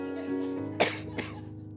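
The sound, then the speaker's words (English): Two short coughs from a man recovering from allergies that turned into bronchitis, sounding as separate sharp bursts over a steady low tonal hum. “And I've been coughing.”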